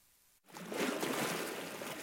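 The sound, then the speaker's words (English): Waves lap along the shoreline of Cortez Island in British Columbia, a soft, continuous wash of water that swells in after a short quiet gap and holds steady as an even, breathy rush with no voices. “Waves lapped along the shoreline of Cortez Island in British Columbia.”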